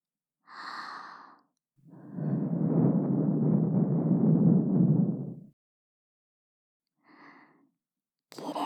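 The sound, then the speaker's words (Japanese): Soft breath blown into the ear: one long, steady airy blow with a low rush, framed by a few shorter, quieter breaths before and after. No voice is heard. “妹にお耳ふうふうされるなんて、恥ずかしくない？”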